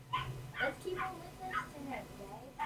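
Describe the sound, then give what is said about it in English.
A puppy in a movie gives a string of short, high-pitched yips and whimpers, repeating at a steady pace, each cry brief and fairly faint. “What, are you going to just let this puppy out to fend for itself?”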